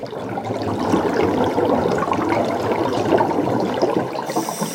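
Underwater water sounds for a diving theme: a continuous bubbling, gurgling wash of water that stays fairly steady in level with small swells throughout.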